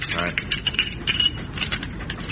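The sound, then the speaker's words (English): Metallic clicks and rattles of rifle bolts being collected and thrown out of a door, a dense run of many quick mechanical clacks and scrapes at moderate loudness, with no talk. “collect the rifle bolts, throw them out of the door. Fraser. What? Take the Lewis gun to pieces and throw the bits out of the door. Right. I'll throw the bolts out now, sir.”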